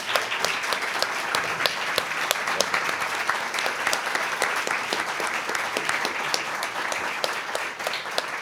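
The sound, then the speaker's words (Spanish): A live audience applauds at the close of an interview with steady, dense clapping that holds at an even level throughout. “quiero un fuerte aplauso”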